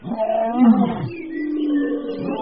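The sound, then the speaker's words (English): A lion cries in pain from a large thorn stuck in its paw. It gives a low, groaning roar-like moan that swells, then trails into a drawn-out, wavering wail. “it wasn't really roaring. He was crying because a huge thorn was sticking out of his paw.”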